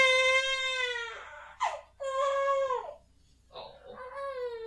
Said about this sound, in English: Doesn't she have, like, this, like, pathetic whine?